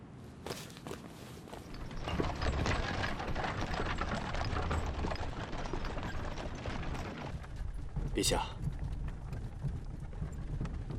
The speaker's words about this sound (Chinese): 立马骑马出宫。